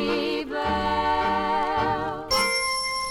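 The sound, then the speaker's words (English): A bell rings twice, each strike leaving a bright, sustained, shimmering tone rich in overtones. The second strike sounds brighter and sharper than the first. “Bell. Very good.”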